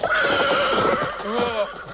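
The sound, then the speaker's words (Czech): A startled horse neighs loudly in a wavering, harmonic whinny, with the clopping of its hooves beneath it. “Nešťastnice, čeho se kuň lekl? Tebe, co?”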